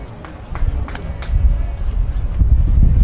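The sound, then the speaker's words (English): Wind buffeting the microphone at a baseball game, a low rumbling roar that grows louder and heavier through the second half. “Wind kept kicking up again.”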